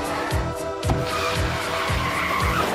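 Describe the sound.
A car reversing in a film scene, with engine and tyre noise and a series of short, repeated falling swooshes recurring at a quick, fairly even pace.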